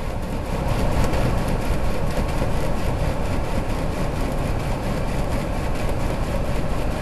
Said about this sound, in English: It's somewhere within several kilometers of the hydrophone, but it's generating a sort of a persistent background sound, and we'll actually hear the propeller.